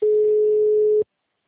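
Ringback tone of a phone call that goes unanswered, heard as one steady, even, mid-pitched buzz that lasts about a second and then cuts off into silence.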